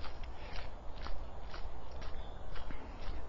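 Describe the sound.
Soft rhythmic footfalls of a horse walking, a steady run of muted thuds about every half second, faint and with no talk over them.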